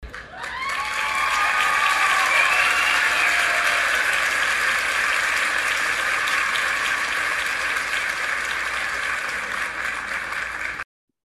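Applause greets an LSU women's soccer player arriving as a guest: a dense, steady wash of clapping that starts abruptly, holds at an even level for about eleven seconds, then cuts off sharply.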